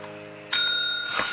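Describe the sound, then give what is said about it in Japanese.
A single bright ding from the press bell of a tabletop dice game, a sturdy bell with a solid base, rings out and sustains over a low steady hum. “いい音だなんですよ ね、 でこれ下もちゃんとしっかり土台もあるし、はい、やってて、だから他のベルよりも結構高級なベルですよね”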